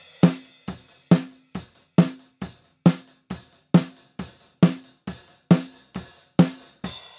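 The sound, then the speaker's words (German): Unprocessed close-miked snare drum played in a steady, evenly spaced series of sharp cracks, each with a short ringing tail, with some bass drum and cymbal bleed under the hits and no gating. “Wir hören mal kurz in die nackte Snare-Spur rein, wie die unbehandelt und komplett ohne Noise Gate und alles klingt.”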